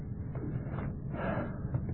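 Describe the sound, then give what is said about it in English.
A person breathing out softly on purpose, a gentle, airy exhale that swells and fades a couple of times, quiet and steady with no talk. “Supposing I breathed on you, listen. Pretty quiet, isn't it? I'll do it again.”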